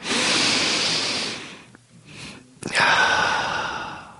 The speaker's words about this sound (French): Je vous invite, chers auditeurs chez vous et chers chroniqueurs également en plateau, à respirer avec moi. Prenons une seconde ensemble pour inspirer profondément.